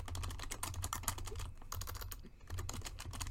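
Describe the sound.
Rapid typing on a computer keyboard, many crisp key clicks in a fast, uneven stream with a brief lull partway through, heard alone without talk.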